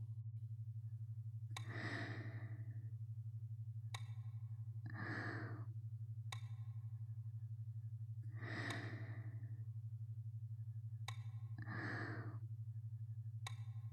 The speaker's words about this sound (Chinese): 慢慢做两组深呼吸。